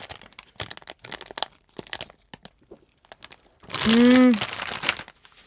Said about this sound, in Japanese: 選ばせていただいたのはパリチキでございます。さあでは早速いただきたいと思います。